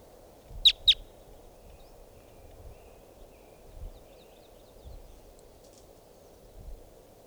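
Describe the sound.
Wild type 2 red crossbills give two sharp, high call notes in quick succession. Faint, scattered chirps follow over a low, steady background hiss.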